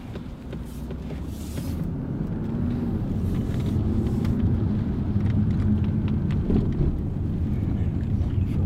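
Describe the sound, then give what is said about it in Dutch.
A car of a traffic-enforcement team pulling away and driving on: a steady low engine rumble that swells after the first couple of seconds and holds, mixed with road and wind noise, with no voices. “Nou, gaan we eens even karren. Ja, gaan we een stukje rijden.”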